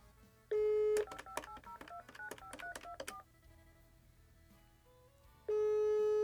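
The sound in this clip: Phone call tones: a steady tone, then a rapid run of keypad dialing beeps and a quiet line, before a steady ringing tone starts near the end.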